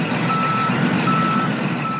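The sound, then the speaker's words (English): A big truck backs up a driveway, its reversing alarm sounding as a steady high tone over a constant low engine rumble. “the big truck backed up the driveway”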